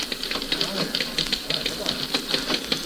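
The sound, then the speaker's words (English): Typewriter keys clacking in a newspaper office as a story is pounded out: many quick, fairly faint mechanical clicks in an uneven rhythm over a steady background hiss. “Chris Bartlett sat at his typewriter in the Tribune office, pounding out an uninteresting story about an appropriation by the state legislature”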